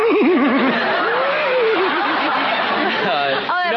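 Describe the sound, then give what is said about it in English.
A human voice imitates a horse whinny, quavering up and down in pitch, over a constant bed of audience laughter and chatter. More voices follow near the end. “He gets a little horse whinny into the left. It's a filly, you know.”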